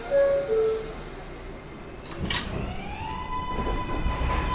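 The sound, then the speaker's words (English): New York subway 7 local train in Queens: a two-note descending chime, then a low rumbling ride with a brief hissing burst and a steadily rising electric motor whine. “This is Manhattan-bound 7th local train. The next stop is Queensboro Plaza. Stand clear of the closing doors, Queens.”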